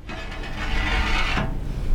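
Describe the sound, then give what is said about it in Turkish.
A drive system turns a mining trommel drum on test, producing a churning, grinding mechanical whir with a low rumble underneath. It holds steady for the whole stretch, with no voices. “O an trommeli döndürecek tahrik sistemini yetiştirmek için zamana karşı çalışıyor. Bu sistem hem madenci Deni'nin belini doğrultacak hem de cevher miktarını artıracak. Hadi deneyelim. Bakalım nasıl olacak.”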